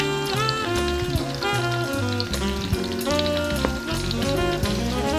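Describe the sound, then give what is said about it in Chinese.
Onions and garlic fry in oil held at about 130 degrees for a homemade Sichuan chili hotpot sauce. The sizzle crackles steadily throughout, under continuous music. “煮到洋葱披上金黄的外衣，而大蒜一压就化成泥时，油脂腥味就完全去除了。”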